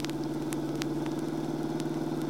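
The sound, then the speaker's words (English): A car engine drones during a chase, a steady low mechanical hum with faint, sharp ticks scattered over it. “He isn't paying any attention. He's speeding up. So I see. Keep with him. Get ahead if you can and force him to the curb. I'll try. This car's a newer model than his.”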